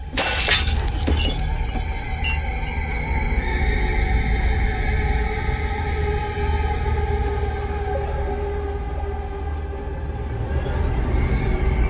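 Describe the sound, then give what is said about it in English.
A drinking glass slips off the edge of a sink and shatters on the floor, a bright crash of breaking glass at the start, then a sustained low drone with steady held tones that continues to the end. “puts down the glass on the edge of the sink, but it drops to the floor”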